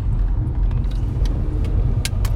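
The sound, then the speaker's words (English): A car creeps out into the middle of traffic at about two miles per hour beside an oversized load, giving a low, steady engine rumble with a few faint clicks scattered over it. “It's a car trying to come out here in the middle of everything. An oversized load. He just want to come out with 2 miles per hour.”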